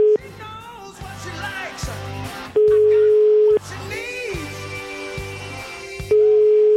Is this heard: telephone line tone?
yes